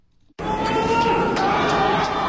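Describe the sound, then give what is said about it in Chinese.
Crowd cheering from the stands at a curling mixed doubles playoff, with the Chinese women's curling team supporting their players: a dense, steady wash of voices that starts abruptly after a brief near-silence and holds to the end. “中国冰壶女队在看台上为巴德新王睿加油。”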